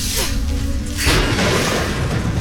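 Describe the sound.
Thunder from a lightning strike close by as a storm rolls in over a wheat harvest: a softer hissing rumble, then a sudden loud crack about a second in that swells into a dense, sustained roar lasting to the end.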